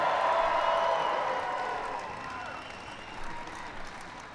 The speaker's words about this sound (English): give it up for the Super Bowl champion, New England Patriots.